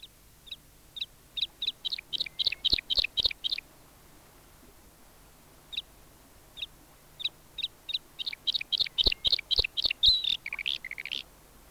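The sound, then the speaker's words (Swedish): A bluethroat sings two bursts of rapid, high, repeated notes, separated by a few seconds of scattered single chirps; the second phrase ends in a warbling flourish. “Det var strömstare, nu följer blåhake.”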